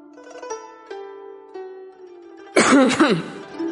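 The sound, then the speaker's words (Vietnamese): A man gives a dry cough and clears his throat in one short, rough, loud burst, after a few soft sustained musical notes. “Bao Chẩn bất đắc dĩ ho khan một tiếng.”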